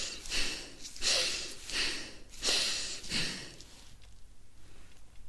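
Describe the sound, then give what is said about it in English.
Deep breaths are drawn in and pushed out through the nose, forming a run of slow, rhythmic airy rushes. The breathing then settles into a quieter hiss. “now take a deep breath in with your nose and out with your nose. You can do that a few times.”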